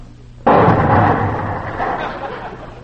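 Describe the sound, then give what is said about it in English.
Gas lit with a match ignites in a sudden loud whoomp, and the flame bursts out into a broad rushing roar that slowly fades over the next two seconds. “Match, wait a minute. Let me see here. Yeah, here's one right here. Here you I can smell that gas all right, too. Where do you light it? I can't find a place.”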